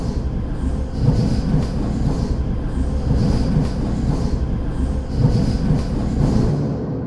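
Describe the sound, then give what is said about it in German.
A heavy mechanical loop made to accompany Soviet tanks rolling into Berlin in 1945 in a historical computer game. A dense, steady low rumble carries recurring metallic clatter and rattling, with no voices. “Daraus baue ich einen Loop. Also eine Tonschleife, die dann in einem historisch angelegten Computerspiel sowjetischen Panzern unterlegt werden könnte, wenn sie in Berlin einfahren, 1945.”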